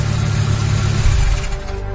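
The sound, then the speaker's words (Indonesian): A car engine is switched off. A steady, low mechanical rumble surges briefly in the middle and then thins and eases off toward the end. “Aku mematikan mesin mobil,”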